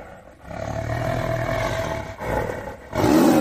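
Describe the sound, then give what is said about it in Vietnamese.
A tiger roars like thunder in deep, rumbling, sustained bursts, with a long low roar followed by a shorter one and a final louder surge at the end. “Mọi người còn đang kinh ngạc, lại có tiếng hổ gầm như sấm.”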